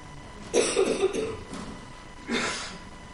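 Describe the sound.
Coughing from allergies: a quick cluster of several harsh coughs, then a pause and one more cough, with no talk.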